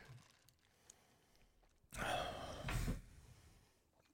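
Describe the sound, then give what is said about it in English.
A heavy, breathy exhale blows straight into a microphone after a drink, one loud, rough, sigh-like rush of air about a second long, framed by near silence. “I just breathed so heavy into the mic.”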